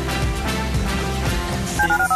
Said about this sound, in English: Dial the phone.